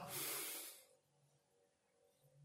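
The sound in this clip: A deep breath drawn in during mindfulness-of-breathing meditation practice: a loud, airy rushing hiss lasting under a second, then fading to near silence with no talk.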